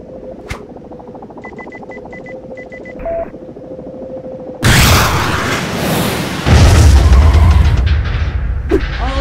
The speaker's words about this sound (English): I'm gonna blow the bridge he's going for.